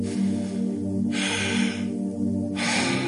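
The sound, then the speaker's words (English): An audience of people breathing out and then in together, two broad, airy whooshes of breath over a low sustained tone. “at the count of three, I want you to release one breath and bring in another. One, two, three.”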